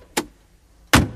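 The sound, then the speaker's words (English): Car door opening on an old Vauxhall Cavalier: two short, sharp mechanical clicks with a brief silence between them, the second louder and fuller than the first. “You know the Cavalier that you were in? Yeah. Did the door, when it opened, sound a bit like this?”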